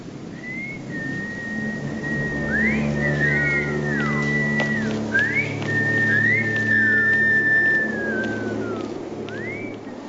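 Someone whistles a slow, melodic tune in a film scene, a clear, high line of sliding and held notes that rises and falls repeatedly over a steady low background.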